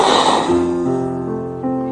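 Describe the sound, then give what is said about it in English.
A man's voice imitates God breathing breath into Adam, a breathy onset that settles into a long, drawn-out voiced tone, sustained and fairly loud. “He breathed the breath of God into Adam.”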